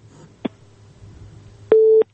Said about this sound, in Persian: فکر میکنم که تماس از دوست ما هم قطع شد